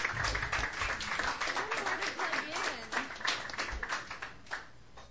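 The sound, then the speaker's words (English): An audience applauds to welcome a young performer onto the stage at a Sunday night open mic. Dense, crackling clapping starts strong, then gradually thins and fades toward the end. “please put your hands together for this talented young artist and welcome Cadence to the”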